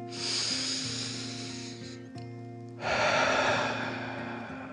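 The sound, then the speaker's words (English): A deep breath in and out: two long, airy breaths over soft, sustained musical tones, the second breath louder and rougher than the first. “He took another deep dragon breath in and out.”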